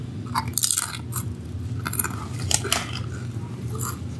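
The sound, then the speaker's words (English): Biting and crunching a barbecue-flavored Doritos tortilla chip: several sharp, crisp crunches scattered through wet chewing, fairly faint over a low steady hum. “How's the new flavor of Doritos? I'm going to bite into this crispy triangle.”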